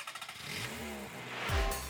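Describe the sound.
City traffic in Rio de Janeiro: a motor engine drones beneath the street noise, then revs up into a loud, brief surge near the end.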